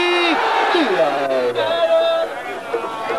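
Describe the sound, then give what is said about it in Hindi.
A crowd at a fair shouts a slogan on request. One loud voice holds a drawn-out call that falls in pitch, then crowd shouting and cheering continue at a steady level. “मेरे नाल एक जक आवाज करो ना ताकि पता लगे मेले ते आया”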